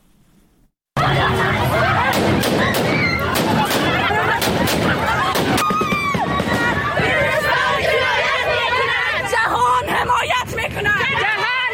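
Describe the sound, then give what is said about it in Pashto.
Women protesting in Kabul shout and clamour as Taliban aerial gunfire disperses them. The crowd noise is loud and continuous, with many sharp gunshot cracks cutting through in the early part. “دا په کابل کې د خزو هغه اعتراض و چې طالبانو په هوایي ډزو تیتو پرک کړ.”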